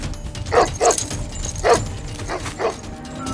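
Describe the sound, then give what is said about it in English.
A leashed dog barks while chasing someone, giving five sharp barks in an uneven rhythm over a steady low background rumble. “A dog chases after him, but its leash chokes him off.”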